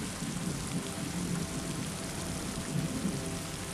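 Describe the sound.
Rain falls steadily, a dense, even hiss with soft patter and no breaks, holding at a constant moderate level throughout with no voices.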